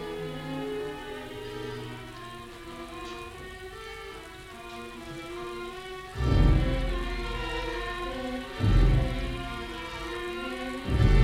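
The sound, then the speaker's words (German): Rain falling on a street at night: a steady, dense hiss with a few deep, rumbling thuds rising out of it toward the end, with no voices. “Nachts, im Regen, auf der Straße.”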